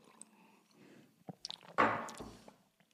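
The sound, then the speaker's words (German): A person takes a quick drink, producing a few short, soft mouth and swallowing sounds with one louder burst near the middle, then quieter clicks. No one speaks. “kurzes Trinken, sorry”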